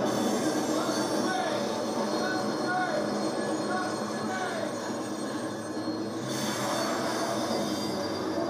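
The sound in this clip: A train passes on rails in a TV drama scene with a loud, continuous rumble and squealing wheels that last the whole clip without a break.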